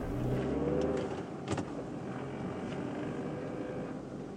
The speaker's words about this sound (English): Then Sam backs out of the driveway and hits the russet red road.